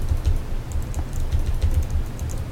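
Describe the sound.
Rapid clicking of someone typing a search query on a computer keyboard, many quick keystrokes in an uneven, continuous patter.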